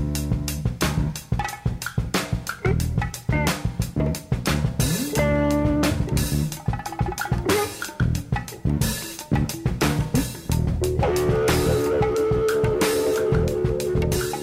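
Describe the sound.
Early-1970s electric jazz-funk plays: a dense, busy groove of rapid percussive hits and clattering drums, with sustained electric tones and keyboard-like notes coming forward in the later part.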